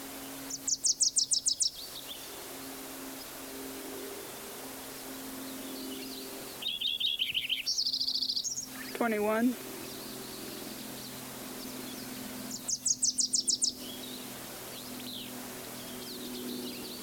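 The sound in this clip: A Wilson's warbler sings three quick bursts of rapid, high chattering notes, spaced several seconds apart. A brief sliding call follows the second burst, and a faint steady hum runs underneath.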